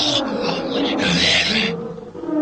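A lion roars in a drawn-out, rough, growling call that swells and fades.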